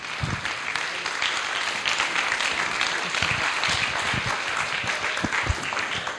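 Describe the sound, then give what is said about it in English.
A church audience stands and applauds to welcome a pastor, many overlapping claps in a steady, energetic wash that continues at a constant level throughout. “Please stand, let's put our hands together and welcome Pastor Ross.”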